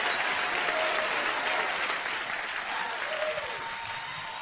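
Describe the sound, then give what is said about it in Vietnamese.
Applause at a comedy show in Vancouver welcoming comedians Chí Tài and Hoài Linh: dense, steady clapping from a crowd, loud and continuous, easing off slightly toward the end. “Một tràng pháo tay để chào đón phần trình diễn của đôi danh hài Chí Tài và Hoài Linh.”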